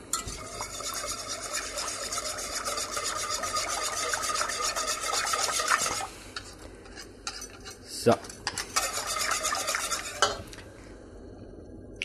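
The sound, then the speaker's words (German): A whisk stirs a liquid mixture with water in a bowl, giving continuous rasping, scraping strokes. The scraping is steady and fairly loud, with a brief dip and a few sharper clinks in the second half. “Und dann nehmen wir einen Schneebesen und tun das Ganze mal umrühren.”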